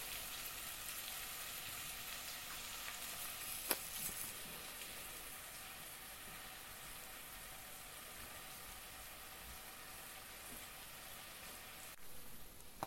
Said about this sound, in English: I'm just giving that a good shove around the pan because it says to keep stirring it.